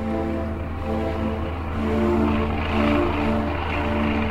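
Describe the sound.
A single-engine propeller airplane flies over the North Atlantic in 1927, its engine a steady, droning hum with layered tones that swells gently in loudness and runs alone without voices.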